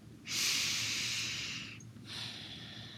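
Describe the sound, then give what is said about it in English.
A deep breath taken during a guided meditation: two long, soft, airy breath sounds separated by a short pause, the first the louder and longer, with no talking. “Take a deep breath.”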